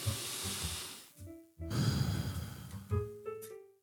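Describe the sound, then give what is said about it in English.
A deep breath in through the nose, then a longer, audible breath out through the mouth. The breathing is soft and unhurried, with no talking. “Now take a deep breath in through your nose, out through your mouth.”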